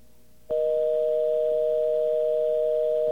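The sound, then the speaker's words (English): A steady telephone line tone, heard on a call after a recorded service-difficulty message, switches on abruptly and holds loud and unbroken at an even pitch to the end. “Well, that sounded like sort of a busy signal there.”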